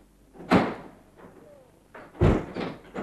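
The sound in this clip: A door being opened produces a few quiet thuds and knocks, two sharper than the rest, separated by near-silent gaps.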